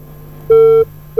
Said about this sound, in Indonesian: Terputus sambungan teleponnya, boleh dicoba kembali ya.